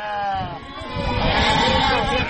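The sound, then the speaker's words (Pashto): Sheep bleating from a hungry nomadic herders' flock of about 300 animals during drought: many overlapping, wavering cries over a dense, continuous din that stays loud throughout. “په دې اړه پام وکړئ دې راپور ته چې د یوې رمې په غږ پیلېږي.”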